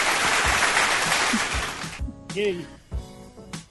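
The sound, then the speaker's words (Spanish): Applause from a crowd honoring a class of announcers at a tenth-anniversary celebration: a fairly faint, dense wash of clapping for about two seconds, then it drops away and people talk. “Un aplauso para todos ellos.”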